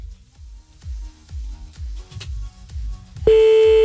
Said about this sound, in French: Bon, déjà raccroché, c'est pas grave, on va le rappeler alors.